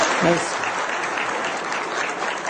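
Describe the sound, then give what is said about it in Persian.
Audience applause fills the stretch as a dense, even clatter of many hands clapping, with a voice heard briefly near the start. “همه دست میزنن آفرین”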